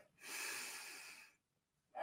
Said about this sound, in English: take a deep breath in